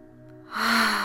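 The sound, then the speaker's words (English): A breathing exercise produces a single airy breath that swells into a soft, rushing whoosh over about half a second. A faint low hum sits beneath it. “So breathing in through the nose, releasing out through the mouth, breathing in through the nose,”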